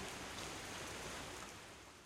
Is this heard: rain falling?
yes

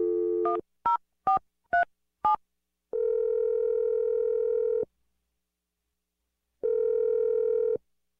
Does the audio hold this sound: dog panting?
no

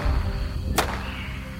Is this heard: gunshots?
yes

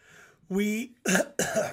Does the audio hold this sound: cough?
yes

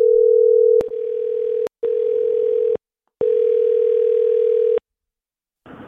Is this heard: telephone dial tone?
yes

